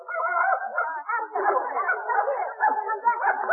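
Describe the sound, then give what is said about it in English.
A dog vocalizes continuously with overlapping whimpers and high yips rather than clear separate barks, moderately loud throughout. “Madam, you can't bring that dog in here. Dogs aren't allowed.”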